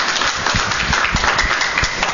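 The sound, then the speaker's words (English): Audience applause at a talk where many listeners are partially sighted: dense, steady clapping that holds at an even level all the way through. “And can I just get a round of applause, not for me, but how many of you are partially sighted who are still in the audience here?”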